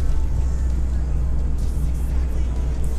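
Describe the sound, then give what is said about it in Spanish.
Steady low engine and road drone heard from inside a car while it is being driven, an even, continuous rumble with faint hiss above and no talk. “recordaros que mis podcasts los grabo mientras conduzco”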